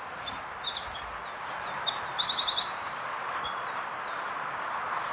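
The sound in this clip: Wren song played back from an internet recording: many rapid, high-pitched chirps and trilled phrases that come in quick bursts and repeat steadily at a fairly loud level throughout.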